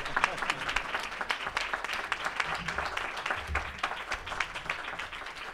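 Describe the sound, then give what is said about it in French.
An audience ovation for someone being called up at an event: dense, steady applause with many hands clapping continuously at an even level throughout. “Ovation.”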